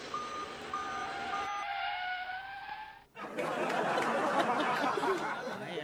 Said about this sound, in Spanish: Escena número 4. Iba el camión en reversa. Iba de reversa. Y de repente frenó.